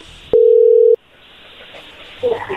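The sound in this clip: Telephone ringing tone on an outgoing call: one steady, mid-pitched buzzing tone lasting just over half a second, then a stretch of low line hiss and a brief rougher sound at the end.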